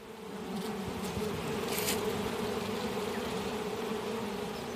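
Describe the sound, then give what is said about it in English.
Honeybees, including drones, buzzing at an open hive during a beekeepers' club day: a dense, steady hum that holds an even level throughout, with no talk. “It's a club day for the Wellington Beekeepers Association, and about a dozen would-be apiarists are getting an up-close look at a hive, some of them for the very first time. These are drones, so you have a different size.”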